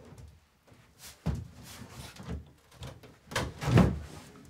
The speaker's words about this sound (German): Wir müssen mal den Schrank ankippen. Von hinten oder was? Ja, so ein bisschen nach vorne, ja.